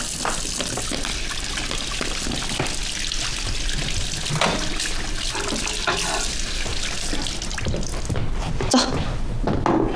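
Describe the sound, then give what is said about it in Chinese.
Water runs from a tap as hands are washed, making a steady splashing and trickling flow with small fluctuations. Voices can be heard at times. “来，洗手。”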